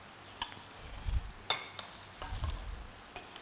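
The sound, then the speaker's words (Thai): Straw mushrooms sizzle as they are stirred and fried in a pan, a soft, fairly quiet frying hiss with scraping and a few sharp taps of a utensil against the pan. “เขี่ยให้มันแยกออกจากกันนะคะแล้วก็ใส่เห็ดฟางนะคะใส่ลงไปเลย”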